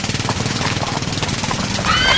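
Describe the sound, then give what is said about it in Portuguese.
Startled horses of a milk cart whinny and neigh over a rapid, rhythmic clatter, loud and continuous, with a shrill whinny near the end. “Entra em seu carro, dá partida violenta e quase bate com uma carroça de leite. Põe a cabeça para fora da janela do carro e grita para o cocheiro, que procura controlar os animais assustados.”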